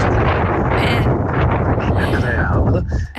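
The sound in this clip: Strong wind of about 35 km/h buffets the microphone on the road to Knokke, a loud, continuous rumbling roar that barely lets up and eases slightly at the very end.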